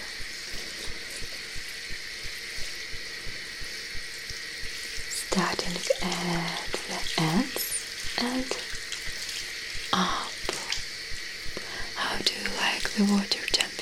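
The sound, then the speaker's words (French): Water wetting hair during a hair wash: soft splashing and trickling bursts come and go over a steady, faint hiss, with the wetter bursts starting partway through. “And now I invite you for washing your hair. Okay? Laver mes cheveux. Mais, mais... To wet their hair with water.”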